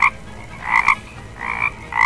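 A toad croaking: several short, raspy croaks, some in quick pairs, come in loud bursts with brief gaps between them.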